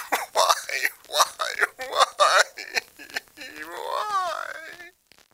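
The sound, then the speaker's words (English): Gentle sobbing comes over a telephone line: a run of short, halting voiced sobs gives way to a longer, wavering moan-like wail that slowly fades before cutting off abruptly. “The words fall to gentle sobbing till I place the receiver back and yank out the cable.”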